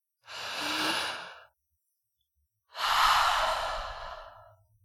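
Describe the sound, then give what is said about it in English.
A deep breath taken during a relaxation exercise on a mat: two long, airy breath sounds separated by a pause, the second longer and stronger and fading out slowly, with no voice. “Relax and take a deep breath.”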